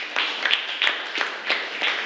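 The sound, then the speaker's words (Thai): Classroom applause for a student group, heard as steady rhythmic clapping in a few evenly spaced bursts. “ปรบมือให้กับกลุ่มที่1ด้วยค่ะ”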